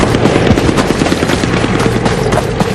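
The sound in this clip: Machine-gun fire at a river ferry crossing: a loud, dense, unbroken rattle of rapid shots over a heavy booming low end that runs the whole way through with no pause. No one speaks.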